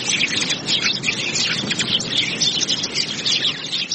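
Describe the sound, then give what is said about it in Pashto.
Birds chirp in a park, a dense, busy chorus of high twittering calls that runs at a steady level through the whole clip, with no voices. “خو سږ کال د خلکو ترغاک د مرغانو شور پکې زیات دی.”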